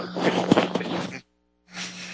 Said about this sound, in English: I had a sneeze. I'm sorry. I apologize.